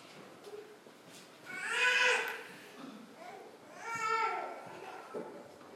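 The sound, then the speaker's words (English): A child fusses in a room, letting out two drawn-out, whiny cries whose pitch falls away, separated by quieter babble and background murmur. “You know what's funny? I can tune out everybody else's kids when I preach. But when one of my grandchildren starts a fussing, I have a hard time tuning that up.”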